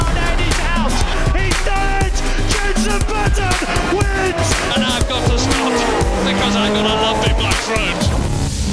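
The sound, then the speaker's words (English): Race cars launch at the start of a W Series race supporting Formula One, a loud, dense roar of several engines revving hard together, their pitches climbing and shifting continuously throughout. “It's lights out and away we go.”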